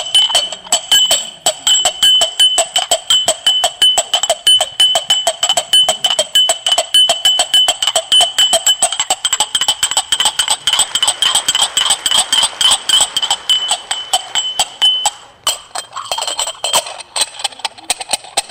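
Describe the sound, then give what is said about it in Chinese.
A performer imitates horse hooves clip-clopping with rapid, sharp, evenly spaced clicks in a steady trotting rhythm. The sound holds loud and bright over many beats, then slackens briefly near the end. “为什么？马年，马年这马蹄儿对他像，”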